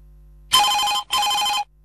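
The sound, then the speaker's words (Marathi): A telephone rings in two long, bright electronic bursts separated by a brief gap. The ringing is steady and loud, with no voices over it. “Phone येतोय, phone घेऊया.”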